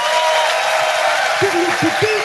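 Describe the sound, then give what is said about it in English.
An audience at a comedy show applauds a comedian with a thick clatter of clapping, and a few cheering or whooping voices rise over it near the end. “Ladies and gentlemen, will you please give a fantastic round of applause to the amazing Tim Key.”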